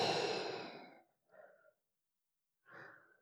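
A person breathes out during a guided breathing exercise: one long, airy exhale, then two shorter and softer breaths separated by silence, all quiet and without talk.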